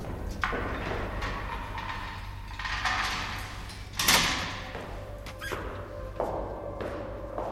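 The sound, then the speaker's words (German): Prison cell door being unlocked: a few metallic clunks and squeaks, with one sharper thud midway, over a steady low hum. “Bald darauf wird Germans Zellentür aufgeschlossen.”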